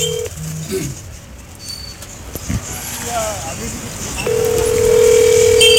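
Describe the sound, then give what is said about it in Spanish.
A telephone number is dialed, with short tones at the start and then a steady ringing tone that holds to the end, while voices talk over it. “Ok, a ver si contesta. A ver. ¿Estamos listos? A ver. Vamos a marcar.”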